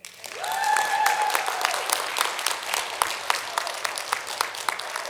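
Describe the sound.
A church audience applauds new members who have just joined, with dense, sustained clapping from many hands throughout and a short tonal whoop near the start.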